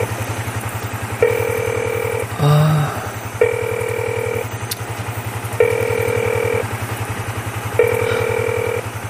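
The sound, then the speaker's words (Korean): Repeating ringback tones of an unanswered phone call, four evenly spaced two-tone beeps over a steady low engine rumble from a motorcycle, with no voices. “아, 동업자 아저씨는 왜 전화를 안 받아?”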